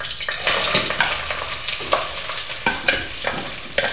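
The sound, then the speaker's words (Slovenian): Coarse onion rings fry in oil in a pot, a steady crackling sizzle broken by many sharp scraping clicks of stirring. “v olju bom zdaj opražil te kolobarje čebule”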